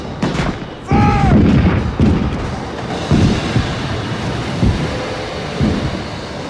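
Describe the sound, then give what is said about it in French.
Artillery battery firing its cannons, with several heavy booms in an irregular rhythm and a whistling, falling tone near the start, over a rough windy roar. “Allez, mettez les batteries en action.”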